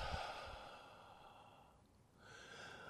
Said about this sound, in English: Just, chill a bit. Just breathe in.